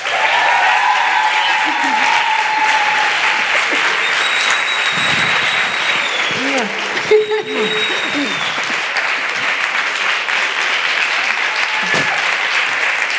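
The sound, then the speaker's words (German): Loud, sustained applause from a studio audience welcoming a guest onto a TV show, a dense continuous clatter of clapping with shouts and whoops rising out of it, staying strong to the end. “Macht mal richtig Lärm für Irina Schlauch.”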